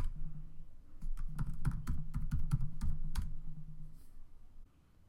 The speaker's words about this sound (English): Let's type enter.